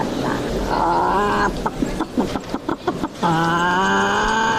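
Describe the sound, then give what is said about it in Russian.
A wind-up toy rooster crows at a stall selling humorous horoscopes. Two long, flat, buzzy mechanical crows frame a run of sharp clicks in the middle. “Иллюстрация к словам Алены Солнцевой – заводной петух на стенде, где торгуют веселыми гороскопами.”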